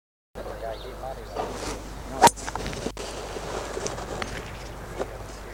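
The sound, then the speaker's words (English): A golf ball is struck with a fairway wood, giving one crisp, sharp impact that stands out briefly over continuous talking. “I think overall it's just a lovely feeling sound from a fairway wood that looks very simple, very clean, very understated, but it's giving you a lot of performance, a lot of power, and a lot of flexibility.”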